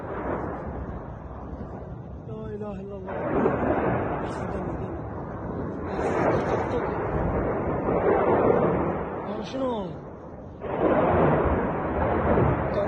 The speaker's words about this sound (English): So unconfirmed footage of US airstrike in Syria.